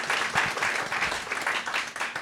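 An audience applauds to welcome an orchestra's music director, a continuous, fairly loud patter of many hands clapping that stays even throughout with slight rhythmic surges.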